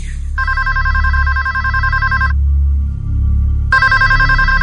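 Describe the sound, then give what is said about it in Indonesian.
A telephone rings in two loud bursts of a bright, repeating electronic trill, separated by a short pause, with the second burst cut off at the end. A low steady hum runs underneath throughout. “telepon itu berbunyi lagi.”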